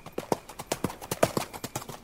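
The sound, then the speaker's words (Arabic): Horse hooves clip-clop in a steady walking rhythm, with many crisp, evenly spaced strikes of moderate loudness and no other sound. “حتى أصحاب الخيول بتلاقي الفارس اللي بيركب الخيل بيحاكيه، بيعطيه أوامر صوتية لتحديد سرعة الركض أو المشي أو التوقف.”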